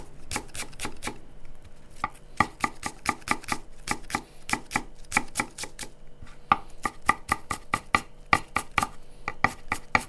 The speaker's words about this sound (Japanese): とネギもみじん切りにします、はい、これがワンタンの具になるやつですね